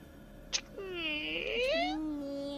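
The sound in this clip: A person imitates a cat meowing during a tabletop roleplaying game, voicing one drawn-out, nasal meow whose pitch wavers up and down before trailing off, preceded by a faint click.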